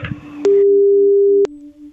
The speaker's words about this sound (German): Gut, ich drücke mal auf Anrufen. Sobald sie rangeht, geht's los.